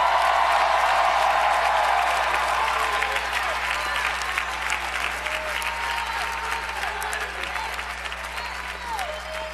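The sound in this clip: A church audience bursts into applause and cheering, with thick, sustained clapping and scattered shouts over it. The noise stays loud throughout and eases slightly toward the end.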